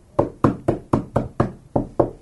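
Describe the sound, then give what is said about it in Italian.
Knocking on an office door, a steady series of firm, evenly spaced raps with a hollow, woody tone, heard alone. “Bussavano alla porta del suo ufficio.”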